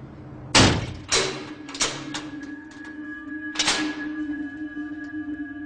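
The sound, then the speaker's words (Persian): A door is shut with a few sharp thuds in quick succession, the first and last the loudest, over a faint steady tone. “ببن اون درو.”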